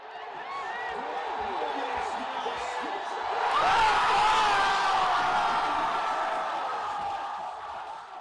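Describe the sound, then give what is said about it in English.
A baseball crowd roars as the Washington Nationals clinch the National League pennant and a World Series berth. The dense, steady cheering swells louder midway, then eases. Voices and talk rise over the din. “That was the sound of victory, specifically victory in the National League pennant for the Washington Nationals,”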